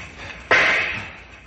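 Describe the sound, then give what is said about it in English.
A single gunshot fired to blast the lock off a handcar shed: one sharp, loud crack that hits abruptly, then decays over the following second, with no other sounds. “Stand back while I shoot the lock off.”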